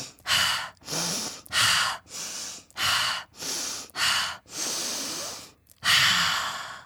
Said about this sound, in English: let's take 5 deep breaths together," I said. "Breathe 5 times.